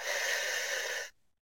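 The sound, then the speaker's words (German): A deep breath taken during a guided breathing exercise, heard as one steady, airy rush of air lasting about a second before cutting off abruptly, with no talk. “Erstmal tief durch die Nase einatmen und durch den Mund wieder ausatmen.”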